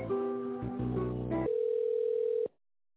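A telephone dial tone sounds as a call is placed: shifting multi-tone sounds give way to a loud, steady, single-pitched hum that cuts off abruptly, with no talk.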